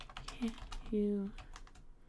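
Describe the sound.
Typing on a computer keyboard to search Google: a quick run of light, clicking key taps with brief voice sounds over part of it.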